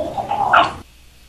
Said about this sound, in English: What was that? It was a cat growling.